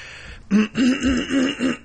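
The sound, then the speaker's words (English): Throat clearing: after a short quiet moment, five voiced, gruff grunts come in a quick, even rhythm, each a short rasp of similar loudness, with no talk around them. “you can tell because I'm clearing my throat for it”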